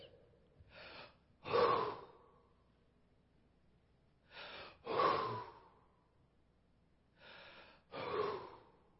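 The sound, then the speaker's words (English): The oldest man in a family ritually breathes on family members gathered in a tight huddle: three evenly spaced pairs of forceful breaths, each a softer short exhale followed by a louder, longer one, with quiet in between. “the oldest man in the family will walk around the family and breathe on them. And it looks like this.”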